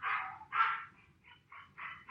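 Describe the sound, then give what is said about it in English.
Dog barking and yipping while confined in a crate during crate training: a few sharp, mid-pitched barks in uneven bursts, some loud and some fainter, with short gaps between them. “Can you guys hear that dog? Can you hear the dog?”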